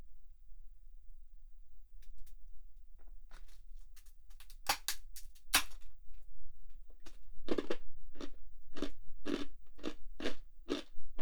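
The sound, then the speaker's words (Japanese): Crunchy snacks being bitten and chewed, a few sharp, scattered crackling bites at first, then a steady, regular run of loud crunching chews through the rest. “たまにはこうやってね、 お菓子でも食べて、休むことも大事よね。”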